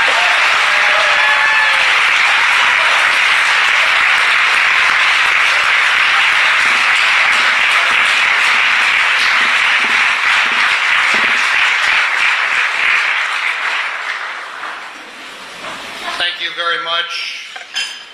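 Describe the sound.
Warm audience applause greets a guest lecturer at a Catholic college talk, a loud, sustained wash of many hands clapping for about fifteen seconds before thinning out as a voice begins to speak.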